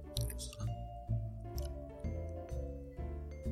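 Someone bites and chews a Tambun biscuit, a small Malaysian pastry with a thick, oily crust. The chewing is quiet, moist and crunchy, coming in regular bursts about every half second.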